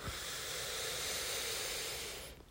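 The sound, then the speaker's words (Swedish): A deep breath drawn in through the nose makes a steady, airy hiss that holds for about two seconds and then stops. “Och ta ett djupt andetag in genom näsan. Fyll upp hela bröstkorgen och magen med ny luft och energi.”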